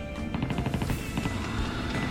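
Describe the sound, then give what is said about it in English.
Gunfire in a multiplayer shooter video game: a rapid burst of many quick shots in a fast, even rhythm over a constant low rumble. “Shots fired.”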